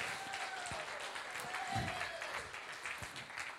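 A church audience at Caldwell Church applauds to welcome a visiting pastor, with sustained, fairly faint clapping that keeps an even level throughout.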